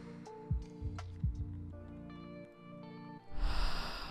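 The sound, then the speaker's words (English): A deep breath is drawn in through the nose during a guided breathing exercise: a loud, rushing nasal inhale near the end, after soft humming tones and a few low thumps. “I want you to take about 10 deep breaths with me. In through your nose,”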